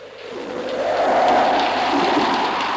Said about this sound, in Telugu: నువ్వు చెప్పినట్లే కరువు తీరేలా జడివాన కురుస్తోందయ్యా.